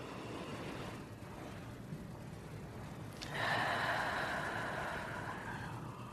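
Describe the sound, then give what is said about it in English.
A long, slow exhale through the mouth during a guided breathing exercise. It is a soft, breathy hiss that begins about halfway through after a quiet stretch and fades gradually over the following few seconds. “A long, slow out breath through the mouth. And maybe one more like that.”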